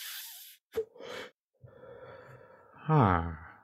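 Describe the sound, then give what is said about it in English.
A deep puff on a joint: a sharp click and a short burst, then a long, steady inhale of smoke that ends in a louder voiced breath. “I'm going to take a deep puff.”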